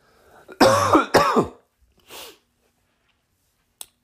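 Throat clearing and coughing from bad allergies: two loud, harsh bursts close together, then a softer, shorter cough a moment later, followed by quiet and one tiny click.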